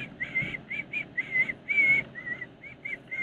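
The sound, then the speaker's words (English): A man whistles an eerie, creepy tune while walking into a store. A string of clear, fairly high notes comes in short phrases with small gaps, alone and without talk. “But he's whistling that thing that the creepy nurse from Kill Bill whistles.”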